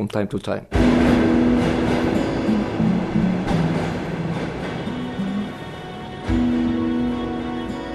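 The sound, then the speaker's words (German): A Soviet-era tram rides into the city centre of Lviv. After a brief, quieter opening it becomes a loud, steady rumble with humming motor tones that shift in pitch and occasional clatter from the rails. “Eine Straßenbahn aus sowjetischen Tagen bringt mich in die Innenstadt.”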